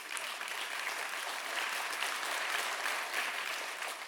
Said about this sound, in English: It's a really weird time to clap. As I'm preaching that part, I'm uncomfortable. And y'all are clapping.